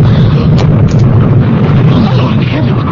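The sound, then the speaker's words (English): A mailbox explodes, filling the whole clip with a loud, dense roar that is heavy in the low end and carries no clear single onset. “Oh, the mail post. It blew up. Oh, it exploded.”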